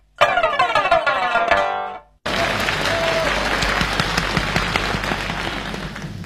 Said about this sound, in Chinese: 谢谢朋友们的掌声。